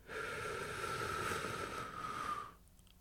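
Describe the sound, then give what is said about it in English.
A slow, deep breath drawn in during a guided breathing exercise, a soft, airy hiss that holds steady for about two and a half seconds and then stops. “We'll start by breathing in”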